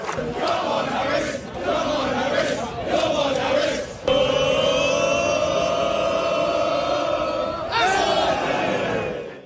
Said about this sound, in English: Classic football chant, except it's at a baseball game. It's baseball chanting by football fans.